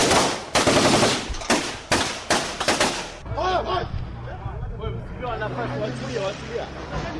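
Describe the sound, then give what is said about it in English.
Bursts of live gunfire shot into the air by a crowd after Friday prayers at a mosque crack loudly in quick succession, then give way to a steady murmur of many voices. “Now, you have heard the firing of live bullets in the air”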